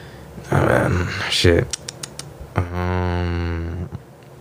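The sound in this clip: Typing on a computer keyboard to look something up: a quick run of a few sharp, dry key clicks, set between louder wordless vocal sounds.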